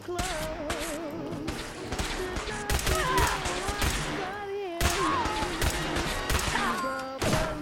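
Heavy gunfire crackles through a video game firefight involving power armor and a deathclaw. Many loud, rapid shots and bursts overlap in irregular clusters, with sharp cracks and thuds packed close together.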